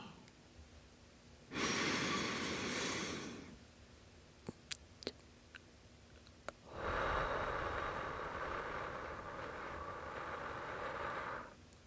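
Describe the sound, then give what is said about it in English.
Slow, deep breathing during a guided relaxation: two long, airy breaths separated by a quiet pause with a few faint clicks, and no talk over them. “Close your eyes for me and take a deep breath. Breathe with me.”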